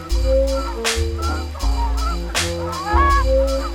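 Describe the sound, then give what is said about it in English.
Giant geese honk over the prairie in a busy chorus: many loud, nasal honks overlap in an irregular rhythm, some rising at the end, above a steady low rumble. “the prairie skies will resound with these familiar calls of the giant goose.”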